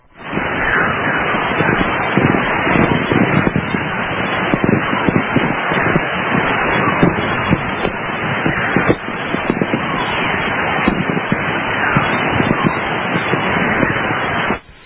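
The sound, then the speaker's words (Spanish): Crackling radio static from a radio amateur's recording of magnetic anomalies during a solar storm in Panamint Valley, northeast of Death Valley. A dense, steady hiss with many rapid crackles runs throughout, then cuts off abruptly at the end. “Esto pertenece a una tormenta solar, entonces. Exactamente, ahí está, pero son lo que se llamarían anomalías magnéticas que quedan plasmadas pues en ese tipo de grabaciones, ¿no?, de radioaficionados,”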